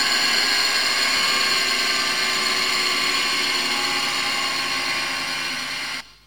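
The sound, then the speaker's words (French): An industrial sewing machine runs with a steady, slightly tonal whirring hum that holds for about six seconds, easing a little in loudness before cutting off abruptly. “Alors il y a aussi une machine à coudre. Industrielle, ouais, voilà. Alors qui chante un peu, en tout cas à mes yeux.”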